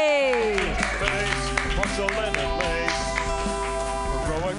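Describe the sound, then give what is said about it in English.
An audience applauds at a comedy club open mic as a comic is introduced. Dense, steady clapping runs throughout, mixed with a loud music bed of sustained tones. “Clap wildly right now for Richard Sarvate!”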